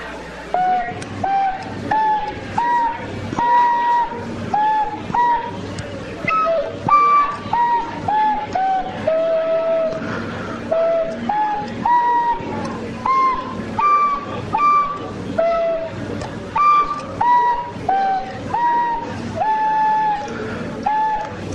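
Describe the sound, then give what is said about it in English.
Tin whistle melody made of many bright, clear notes at a lively, even tempo. Short notes mix with a few held ones, played over a low, pulsing background. “Let's play a little bit of this here music. Can't wait. I love playing my tin whistle.”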